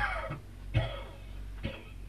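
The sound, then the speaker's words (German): Faint human coughing, a few short, dry bursts spaced apart over a steady low hum. “Sie husten mir das ganze Gesicht voll Sand.”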